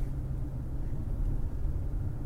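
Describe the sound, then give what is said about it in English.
Low, steady road rumble from a truck driving nearby on the road, a continuous deep drone with no distinct events, fairly quiet and unbroken. “I hate when trucks be driving and they forget they got their turn signal on. I'm like trying to let this truck over, and I don't know what's going on here.”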